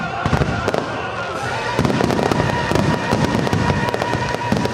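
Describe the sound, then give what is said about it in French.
Fireworks at an outdoor opera show on the water in Sydney: many sharp crackling bursts in quick, irregular succession over a continuous rumble, growing louder and denser after the first couple of seconds. “et comme si ça ne suffisait pas, un feu d'artifice est également tiré chaque soir.”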